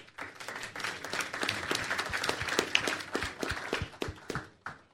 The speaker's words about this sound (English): So I think that deserves applause.